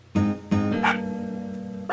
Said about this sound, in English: The dog has to have a say, too.